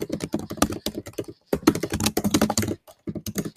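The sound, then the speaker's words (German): Keys clatter on a computer keyboard as a social-media message is typed, in rapid, irregular bursts of clicks broken by two brief pauses, with no voices. “und dann möchte ich nochmal eine Instagram-Nachricht verschicken und hier schreibe ich”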